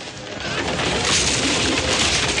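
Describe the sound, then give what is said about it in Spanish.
Dense crashing rumble of a wooden scaffold collapsing and a giant stone statue's nose breaking off and falling, from an animated adventure film scene set in ancient Egypt; a loud, continuous wash of smashing debris that barely lets up. “Luego el andamio se derrumba golpeando la nariz de la estatua, la cual se rompe y cae.”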